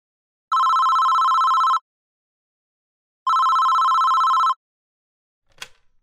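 A telephone rings in two long, even bursts separated by a pause, loud and clear with no talk, and a short clattering noise comes after them.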